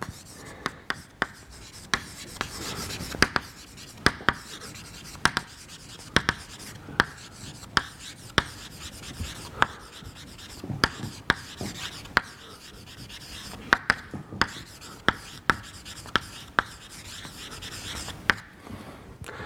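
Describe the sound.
Writing on a board during a chemistry lecture: scratchy strokes broken by many sharp taps at an irregular pace, spread over nearly twenty seconds.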